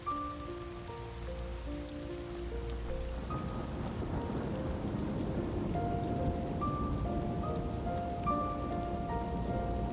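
A heavy rain downpour pours steadily as a dense, even hiss throughout, with soft sustained musical tones drifting over it.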